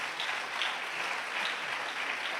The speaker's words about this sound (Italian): Vogliamo incoraggiarlo con un applauso, per piacere.